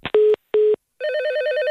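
A telephone rings with two short tone bursts and then a steady warbling electronic trill. The ringing is loud and heard alone, with no talk.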